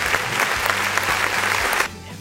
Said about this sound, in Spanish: aplausos, por favor